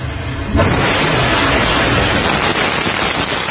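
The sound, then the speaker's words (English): A Northrop Grumman Antares rocket lifts off from a launch facility at night. Its broad, rumbling roar bursts in after a quieter moment and holds steady and loud to the end. “A Northrop Grumman Antares rocket blasted off from NASA's Wallops flight facility last night.”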